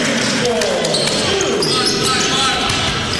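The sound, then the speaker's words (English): Basketball dribbling on a court during a basketball game, faint bounces buried under a steady wall of crowd noise and voices. “Picks up his dribble, gets to Wendt.”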